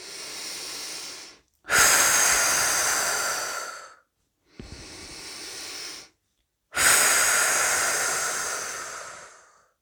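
Deep breathing out during a guided relaxation exercise: four long, airy breaths of a few seconds each, separated by short silences, with no talk.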